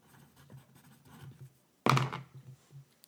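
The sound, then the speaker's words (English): A pen scratches as something is written down by hand: soft, irregular strokes in short bursts, with one sharper, louder knock partway through before the quiet scratching resumes. “hold on, I have to write something down.”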